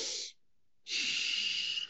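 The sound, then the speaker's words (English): A full exhale through the nose, soft and airy. A short breath is followed by a pause, then a longer steady nasal rush of air that fades out. “that's a full exhale with my nose.”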